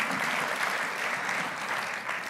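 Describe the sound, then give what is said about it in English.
Soft applause comes from a church audience: a dense, even patter of many hands clapping. It stays fairly quiet and steady throughout, easing off slightly at the very end. “Some of you applaud.”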